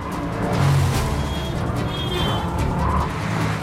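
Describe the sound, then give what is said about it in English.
Car engine roaring as the vehicle is flicked round on cobbles and speeds off, a steady, loud rumble that holds throughout. “He flicks the car round and speeds off.”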